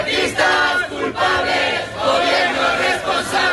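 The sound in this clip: A housing protest crowd marches through the streets of central Logroño, their massed shouting and chanting forming a steady, loud roar that swells and dips in waves without pause.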